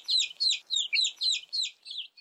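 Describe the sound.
An angry mother hen clucks in a rapid, even series of high, scratchy calls that keep a steady rhythm, with no talk over them.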